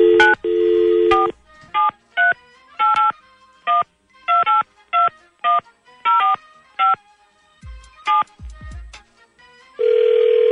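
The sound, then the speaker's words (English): Telephone keypad tones beep as numbers are dialed in a race between two callers: a long steady tone opens, then many short, unevenly spaced beeps, and another long steady tone closes the sequence. No talking. “Let me push my buttons.”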